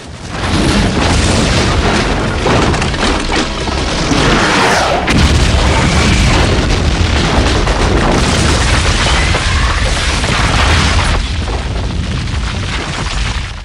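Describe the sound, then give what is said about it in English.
A missile strikes a wreck and blows it apart in a loud, sustained explosion, a heavy rumbling roar with bursts and crackling debris that fills many seconds before easing slightly at the end. “In the cockpit, Turner selects a missile from a weapons menu and fires it at the wreck. The missile hits home, blowing the wreck to smithereens.”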